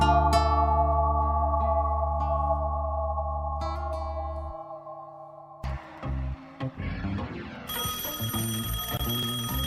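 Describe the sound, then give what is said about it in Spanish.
An electronic telephone-style ringing tone holds steady and bright for about four seconds, then gives way to a burst of noisy clatter and finally a high, sustained ringing tone. “En la Bolche Radio suena el teléfono rojo”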